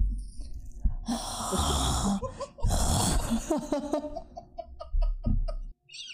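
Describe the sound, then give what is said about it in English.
Heavy, snoring-like breathing comes from someone who is awake: a few long, rasping, snorting breaths, loud and rough, then shorter broken wheezy puffs toward the end. “It's bordering on snoring.”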